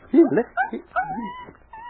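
A puppy whimpers in a few short, high, whiny cries. The cries come in separate bursts, with quiet moments between them.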